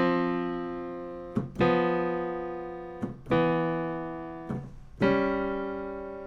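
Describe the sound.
Two-note left-hand chords are played on a keyboard. Clear, sustained tones fade slowly after each strike, with a few chord attacks arriving in close pairs and gaps between them.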